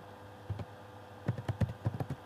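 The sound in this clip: Typing on a computer keyboard while entering text for a web page: a couple of isolated soft keystrokes, then a quick uneven run of light clicks, with no talking.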